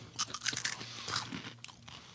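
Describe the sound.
Someone crunches and chews a Funyun onion snack, a series of faint, crisp bites and chewing noises with no talk.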